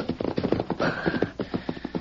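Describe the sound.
Hoofbeats of a horse reined up sharply outside a shack: a run of many firm, rhythmic strikes at a steady pace that carries on without slowing.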